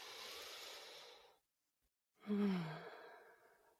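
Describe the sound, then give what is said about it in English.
A deep breath taken while sitting up straight in a relaxation exercise: a long airy inhale, a brief silent pause, then a slower exhale that starts with a soft voiced sigh and fades away. “with a joyful, relaxed, brave posture, take a deep breath.”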